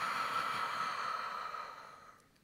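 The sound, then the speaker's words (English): A person exhales long and airy during a seated breathing exercise, sitting taller. The breathy hiss holds steady, then fades away over about two seconds. “Then exhale, sit taller.”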